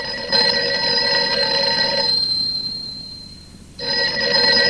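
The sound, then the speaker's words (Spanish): A telephone rings unanswered as a worried woman calls her fiancé: a loud, steady bell-like ring, a pause of about a second and a half, then the ringing starts again, with no voices. “llama preocupada a su prometido.”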